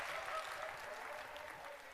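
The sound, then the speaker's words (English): Applause from an audience, a faint but continuous wash of many hands clapping that stays fairly even and tapers slightly toward the end. “And there we go. We get a big round of applause.”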